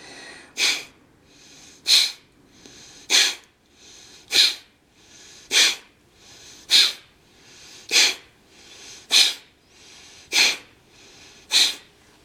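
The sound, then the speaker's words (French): Alternate nostril breathing, with air pushed sharply in and out through the nose in a yoga breathing exercise: ten short, hissing nasal breaths in a steady, even rhythm, with no voices. “Vous inspirez par les deux narines. Fermez la narine droite, chassez du côté gauche. Puis vous ouvrez, inspirez par les deux. Fermez à gauche, chassez à droite.”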